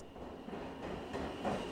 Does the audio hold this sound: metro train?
yes